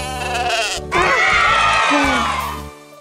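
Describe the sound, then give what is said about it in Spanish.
A sheep gives a loud, long, wavering bleat with a tremulous, nasal quality, held for nearly two seconds over a steady low hum before trailing off. “Niños, ¿saben qué animal hace me? ¡Es la oveja!”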